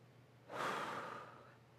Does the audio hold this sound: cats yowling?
no